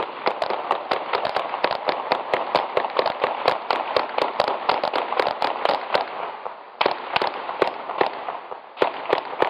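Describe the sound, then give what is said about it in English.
Gunfire in a large Midwestern city late at night, picked up by microphones mounted on telephone poles or tall buildings: many sharp shots in quick, uneven bursts, with a brief gap near the end. “That was 32 rounds, recorded by microphones mounted on telephone poles or tall buildings somewhere within a mile of the shooting.”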